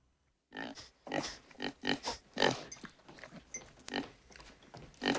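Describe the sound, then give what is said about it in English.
A pig, a sow, sniffs and grunts. After a brief silence comes a quick run of many short, snuffling, snorting bursts. “The door opens and a pig trots in.”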